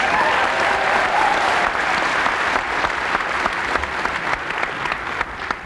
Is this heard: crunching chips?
no